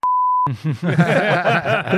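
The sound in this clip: A censor bleep covers a swear word: one steady, high pure tone lasting about half a second. A person then keeps talking.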